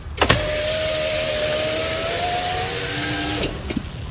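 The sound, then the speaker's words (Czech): A car's electric window closing: a click, then a steady whirring motor whine for about three seconds, ending with a few more sharp clicks as the glass seals shut. “Co to sklapí okýnko v autě.”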